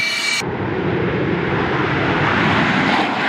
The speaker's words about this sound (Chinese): 数架战机呼啸升空，直奔目标空域，展开高强度空战对抗训练。